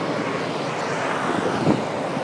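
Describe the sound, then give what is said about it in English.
Wind buffets the microphone while riding across Waterloo Bridge in London, a steady, broad rushing roar with a brief gust swelling near the end. “Just riding across Waterloo Bridge. What a fine day in London.”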